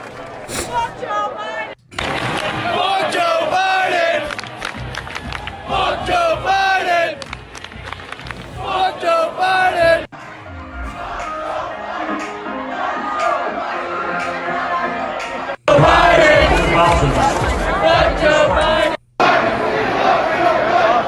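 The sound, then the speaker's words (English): College stadium crowds chant in unison against a man named Joe. Several loud, roaring stretches of massed voices are cut together, with brief abrupt gaps between them. “As you can hear, the college stadiums are chanting the hatred towards Joe.”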